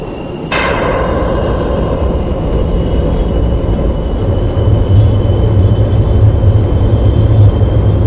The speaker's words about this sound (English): Put your throttle all the way up until the afterburners kick in. We'll wait for your aircraft to accelerate.